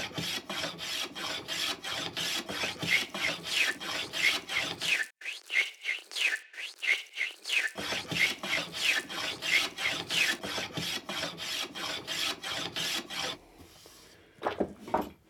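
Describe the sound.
Sandpaper rasping over a piece of wood: many rhythmic back-and-forth strokes, each a bright scratchy swish, with a short quieter pause midway before the strokes resume, then fading off near the end.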